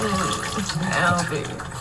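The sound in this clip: Water splashing and running while someone's back is being washed, a continuous wash of sound across the whole clip with a murmuring voice blended in.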